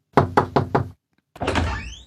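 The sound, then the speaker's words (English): Four sharp, evenly spaced knocks on a door, then a short silence and a longer rasping, creaking sound. “She ran upstairs and knocked on the door.”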